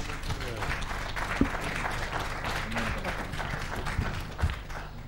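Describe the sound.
Audience applause at a panel discussion: a steady patter of many hands clapping, with a few louder claps and faint voices mixed into the sustained sound.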